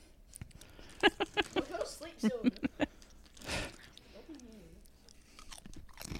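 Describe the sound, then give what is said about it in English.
Crunchy chewing of turkey stuffing flavored wavy potato chips, with many quick, crisp bites in a rapid run, then softer chewing as a voice speaks briefly. “They're yummy. I can sit here and eat some.”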